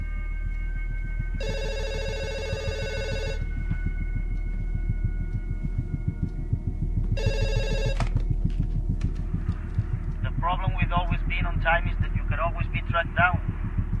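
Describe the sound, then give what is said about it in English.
A telephone rings in two bursts, a longer one and then a shorter one, over a steady low throbbing hum. A voice speaks briefly afterward. “He turns with trepidation to the ringing phone.”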